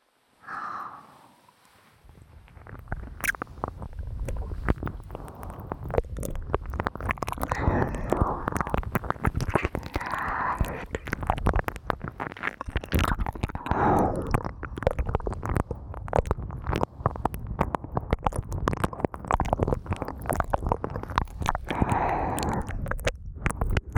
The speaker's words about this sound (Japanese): この真っ赤になっちゃった可愛いお耳、いただきます。